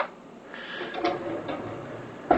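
Whole coffee beans poured into a grinder make a soft, steady rattling hiss, fairly faint, with a sharper clatter just before the end.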